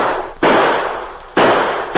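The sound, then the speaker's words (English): Gunshots in a night-time gunfight at a rocky gorge: a few loud, sharp bangs come about a second apart, each leaving a long, rough tail that slowly fades before the next shot. “In the darkness, the sergeant drew his gun and returned the fire.”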